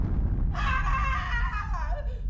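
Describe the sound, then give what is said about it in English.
Spaceship particle cannons firing at an enemy warship: a sustained, warbling electronic tone that starts abruptly over a low rumble, then drops in pitch as it fades out. “Fire cannons at the Sarcastian warship. Firing cannons. Firing cannons.”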